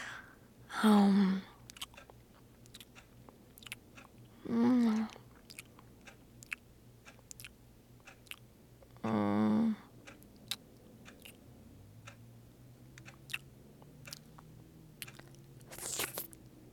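Crunchy biting and wet chewing of a rich, decadent food, with many sharp crackling clicks scattered throughout and three louder bursts of voiced murmuring between them.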